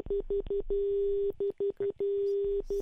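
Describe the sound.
Telephone line tones sound as a phone-in call drops. A steady mid-pitched tone plays in a pattern of three short pips, then one long tone, and the whole pattern repeats twice.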